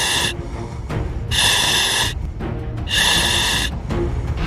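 Rapid, heavy breathing through a gas mask in dense smoke during a ship compartment firefight: a few loud, hissing breaths in a steady rhythm, with no talk.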